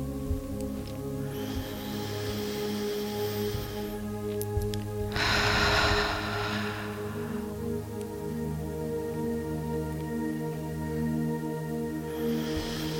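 Deep, slow breaths are drawn in as soft airy rushes over a sustained low tonal drone. Two clear inhalations stand out, and a faint third begins at the very end.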